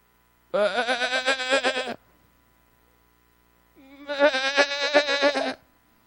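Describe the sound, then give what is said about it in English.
Two long, quavering sheep bleats separated by nearly two seconds of silence, each loud and nasal with a shaky, wobbling tone, the second slightly longer than the first. “Hey, Paul, there's the sheep.”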